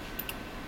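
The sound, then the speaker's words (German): Faint ticking of the caesium fountain atomic clock F1 at PTB: two soft, high, crisp ticks close together, heard over a steady hum of cooling fans. “Was man hier hört, ist der Takt, in dem die Cäsiumatome in der Cäsiumfontäne F1 auf die Reise geschickt werden.”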